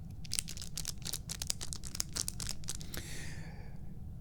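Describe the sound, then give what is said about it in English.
Crackling plastic packaging handled and slid out of an envelope: a dense run of sharp crinkles and crunches that fades into a softer, hissy rustle near the end. “What's that crackling plastic sound you hear?”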